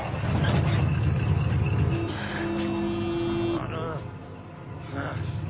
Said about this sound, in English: He hears a noise and turns. An old 1940s rusty pickup is approaching.